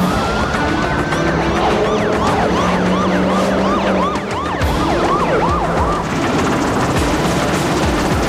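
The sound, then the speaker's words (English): Police squad car sirens wail as the cars arrive at a scene where barricades are going up. Several sirens overlap in rising and falling sweeps, loud and continuous over a low traffic rumble. “Policemen are setting up barricades as squad cars and helicopters arrive on the scene.”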